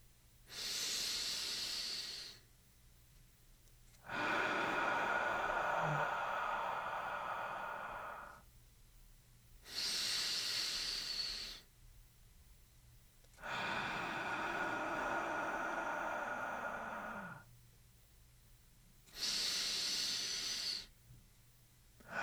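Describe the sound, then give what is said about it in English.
Slow, deep breathing in a guided exercise, filling the abdomen before the chest: a few long, airy breaths alternating between shorter and longer hissing phases, separated by quiet pauses, soft and unhurried. “Try to fill the abdomen before allowing the rise of your chest. Repeat this for 4 repetitions. You can breathe along with me.”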